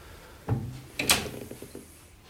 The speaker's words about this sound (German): Na, jetzt kann man wenigstens mal die Tür aufmachen.